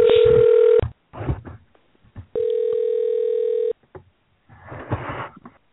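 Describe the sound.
Telephone dial tone and the ringing of an incoming call: two long, steady, loud electronic tones with a buzzy timbre, separated by short irregular bursts of other sound.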